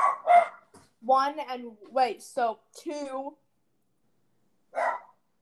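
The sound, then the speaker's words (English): A dog barks indoors while someone is cooking: a few short, sharp barks break in between stretches of a person talking, with one isolated bark after a pause near the end. “Oh my gosh, I'm so sorry about my dog.”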